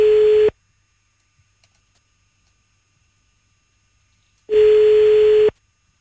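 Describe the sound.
Telephone ringback tone while calling someone from home: two steady, mid-pitched electronic beeps, a short one at the start and a longer one later, separated by several seconds of silence.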